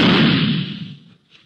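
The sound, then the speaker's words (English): A gunshot fired with the gun pushed into a soft pillow gives a single heavy, dull boom that fades away over about a second, followed by a faint brief sound. “You know, it's pretty easy. You stick a gun into a pillow or something else soft and... Well, listen.”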